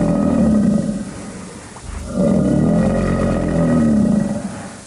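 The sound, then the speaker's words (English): An alligator call played as an effect for the Florida Gator: two long, deep, rumbling lion-like roars, loud and steady, split by a brief pause. “What was that? It sounds like, kind of like a lion. That was the Florida Gator.”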